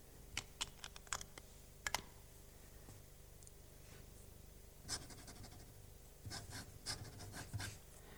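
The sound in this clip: A pen scratches faintly across paper as someone signs a written statement, making soft irregular strokes and brief scraping bursts separated by near-silence.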